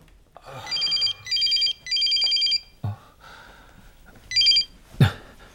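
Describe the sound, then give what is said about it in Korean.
A telephone ringing with electronic trilling bursts, three in quick succession, then a pause and one more. A couple of dull thumps fall between and after the rings. “허우, 이놈의 보이스피싱은 눈치도 없이 전화질이네.”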